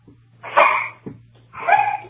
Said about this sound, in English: There's some dogs back there, definitely with Al-Qaeda.